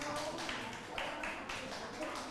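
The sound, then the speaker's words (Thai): Students in a classroom clap for the fifth group and then for all the groups, a faint, steady patter of many hands that runs through the whole clip without clear breaks. “ทุกคนปรบมือให้กลุ่มที่5และปรบมือให้กับทุกๆกลุ่มเลยค่ะ”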